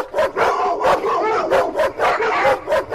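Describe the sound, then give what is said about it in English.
A household dog barks in a quick, loud string of yappy barks, one after another for the whole stretch, with a whimpering edge to some of them and no talking. “That's our dog. That's our dog, yeah.”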